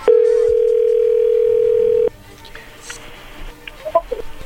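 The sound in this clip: A telephone call being dialed begins with a loud, steady dial tone held at one pitch for about two seconds. It cuts off abruptly and gives way to faint clicks and soft tapping.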